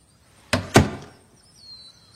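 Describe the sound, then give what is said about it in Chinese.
A living-room door is pulled shut, giving two sharp, solid thuds in quick succession, the second heavier, followed by quiet. “我们所有人陆续走进客厅，没多久 Jip 就关上了门。”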